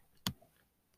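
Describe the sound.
A single sharp mouse click on a 'continue reading' link: one crisp, faint tick standing alone in near silence.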